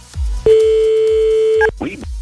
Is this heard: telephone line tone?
yes

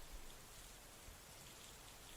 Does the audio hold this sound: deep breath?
no

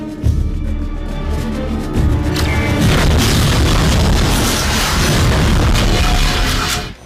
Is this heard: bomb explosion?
yes

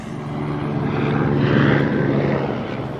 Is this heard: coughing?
no

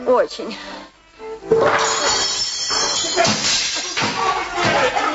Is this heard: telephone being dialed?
no

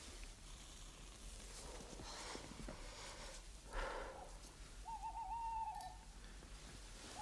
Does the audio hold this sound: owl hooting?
yes

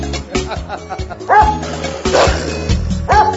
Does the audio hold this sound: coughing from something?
no

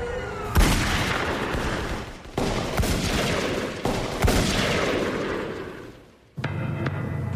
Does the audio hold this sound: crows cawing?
no

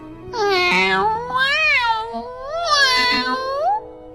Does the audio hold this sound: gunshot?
no

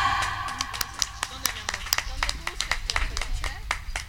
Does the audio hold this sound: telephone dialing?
no

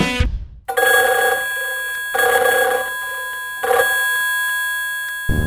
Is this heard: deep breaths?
no

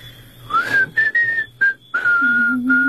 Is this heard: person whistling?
yes

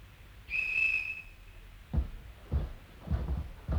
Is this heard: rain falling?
no

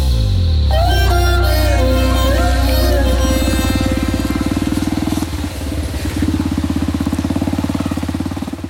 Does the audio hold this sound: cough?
no

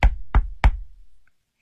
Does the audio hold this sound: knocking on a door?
yes

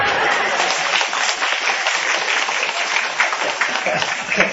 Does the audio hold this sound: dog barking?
no

